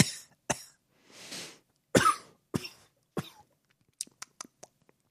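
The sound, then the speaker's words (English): Someone coughs into a microphone in a series of harsh, close bursts with a breathy exhale between them, then a few sharp little clicks follow. “That's how most podcasts should start, with the host just coughing in your ear and popping open beers, right?”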